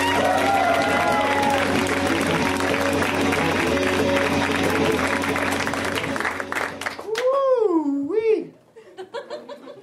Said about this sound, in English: Let's hear it right now for Davey Johnson, guys. Give it up for Davey.